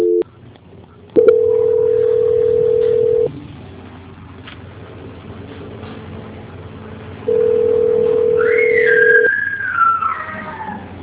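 A telephone line tone plays while a call is being transferred: two long, steady, loud beeps of about two seconds each, separated by a quieter gap, with a wavering whistle-like tone overlapping the second.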